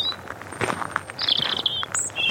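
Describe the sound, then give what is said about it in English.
A small bird in a tree gives a few brief, high whistling chirps over soft rustling background noise. “There's a bird up in that tree, but he's too small to see.”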